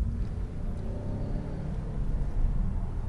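A car with a manual gearbox drives along with a steady, low engine rumble and road drone that swells slightly toward the end, with no voices.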